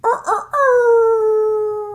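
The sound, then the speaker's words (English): A human voice imitates a half wolf howl, half rooster crow, starting with two short choppy calls and then a long, loud, sustained howl that slowly falls in pitch. “all right, that was half wolf, half rooster.”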